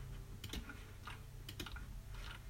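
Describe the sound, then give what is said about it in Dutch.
Faint, sharp computer mouse clicks come in small irregular bursts while the player farms in a video game, with a soft steady hum beneath. “En ik moet nu alles farmen, dus moet je het hele klikken.”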